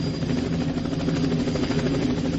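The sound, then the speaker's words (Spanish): A helicopter's engine and rotor drone out in a steady, low, buzzing hum. The sound stays at an even loudness throughout, with no voices over it. “Un helicóptero. Así.”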